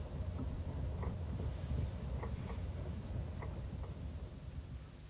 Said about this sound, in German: Ich wundere mich ja, dass wir jetzt schon so lange im Zug gefahren sind